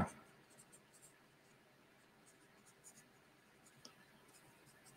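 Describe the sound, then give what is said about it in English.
Notes are written down by hand: a pen scratches softly and intermittently on paper, faint and close, with small taps and strokes throughout. “I'm going to write this down so I don't forget.”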